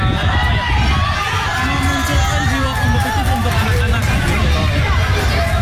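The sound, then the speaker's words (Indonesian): A crowd of residents cheers and shouts at a street futsal match on an asphalt road in Kampung Bandan, North Jakarta. Dense, loud hubbub with children's shouts runs steadily throughout. “riuh tepuk tangan dan teriakan histeris warga membakar suasana sore di kawasan Kampung Bandan Pademangan di jalanan beraspal, tepatnya di depan Masjid Keramat Kampung Bandan”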